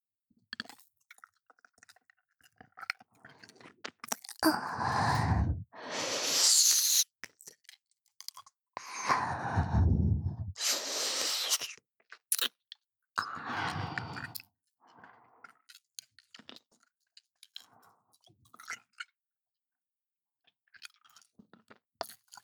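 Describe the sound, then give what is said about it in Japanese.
Wet licking and mouth noises at an ear, made to clean it, come in a few slurping bursts separated by quiet gaps. Faint clicks and smacks fall between the bursts, and no one talks. “こっちの耳も舐めてきれいにしてもらいたいのか。いいよ、別に。”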